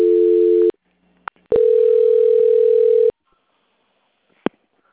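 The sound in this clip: Telephone call-transfer tones on a call-centre line: a short steady tone, a click, then a longer steady tone of about one and a half seconds, ending in silence broken by one more sharp click. No one talks.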